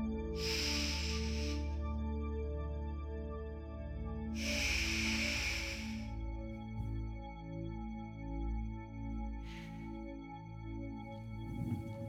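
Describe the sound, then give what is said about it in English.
Long, slow breaths exhaled during a guided relaxation exercise: two extended airy whooshes and a shorter one later, each a soft rushing hiss that swells and fades over a steady sustained tonal background. “let's all take one full breath with a nice long exhalation that feels good for you.”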